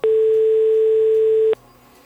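Ringing tone of an outgoing telephone call: a single steady, mid-pitched tone holds loudly for about a second and a half, then cuts off to a faint line hiss.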